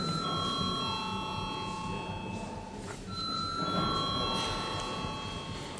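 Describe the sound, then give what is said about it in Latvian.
An electric bell rings in a parliament chamber to call members before a vote, giving steady sustained tones that break briefly near the middle and then resume. “Lūdzu zvanu.”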